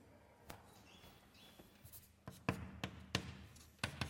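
Handwriting during a maths lecture as a derivative formula is written out, faint scratchy strokes broken by a few sharper taps of the writing tool.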